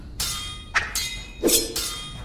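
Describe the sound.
Swords clash in a duel, with a few bright metallic clangs and scraping strikes in quick, uneven succession, each ringing briefly before the next.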